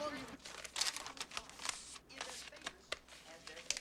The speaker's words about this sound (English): folding up a piece of paper. He's made a small packet and hides it under the covers.